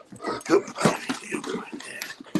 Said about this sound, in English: Oh, lovely dog. Yeah, he just wants a bit of attention. Come on in there, monkey dog.